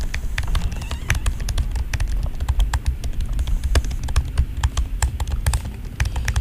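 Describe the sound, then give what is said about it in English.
Rapid typing on computer keyboards held up to a microphone: many sharp, irregular keystroke clicks in quick succession over a dense, steady low rumble, with no talking. “You want to just type on their keyboards real quick into the microphone?”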